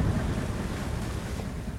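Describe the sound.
Wind blowing at sea makes a steady, dense roar with low buffeting rumble that carries through the whole short stretch without a break. No voices are heard.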